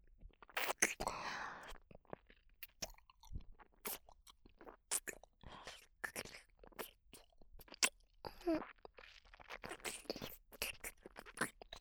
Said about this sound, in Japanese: 反対側を食べちゃいます。いただきます。